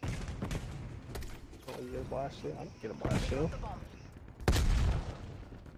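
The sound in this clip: Gunfire from a shooting video game is heard in a few quiet bursts, including a heavier boom near the end, while people talk over it.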